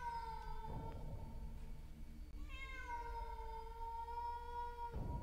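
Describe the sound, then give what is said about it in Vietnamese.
A cat meows at night, giving a few long, drawn-out, mournful wails with wavering pitch. They are faint, over a steady low hum. “Sau đó là tiếng mèo kêu vang lên trong màn đêm, nghe não lòng.”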